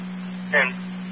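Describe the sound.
A fire dispatch radio paging tone holds one steady, low-pitched note for the whole clip, with a brief burst of radio noise breaking in midway.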